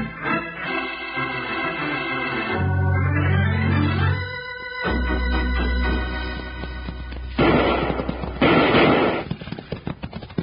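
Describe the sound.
Gunfire from six-guns in a western town: a dense burst of sharp shots in the latter part, layered over loud dramatic music with heavy low tones.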